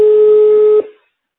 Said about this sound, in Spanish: le haga una llamada, le voy a llamar y lo vamos a poner aquí